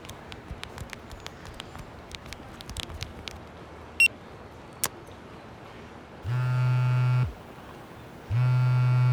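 A phone email notification alert sounds as two long, steady buzzing tones with a second tone following a pause, preceded by scattered faint clicks and taps.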